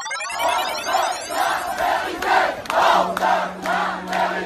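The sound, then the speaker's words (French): Protesters in Rouen, residents alarmed after a fire at a nearby factory, shout together in a crowd, their voices rising in loud, rhythmic chant bursts that repeat steadily throughout. “Tu entends là ces manifestants à Rouen?”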